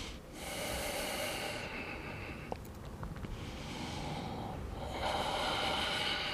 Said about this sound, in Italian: Facciamo altri tre, inspiro, espiro.